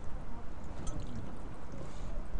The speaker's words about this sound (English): And water's going to escape from the gate. So I'm going to open my gate a little bit.